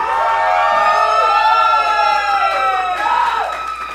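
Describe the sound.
A crowd at a live music show in Tláhuac cheers and whoops for the performers. Loud, overlapping shouts rise and fall in pitch and carry through the whole clip, easing slightly at the end.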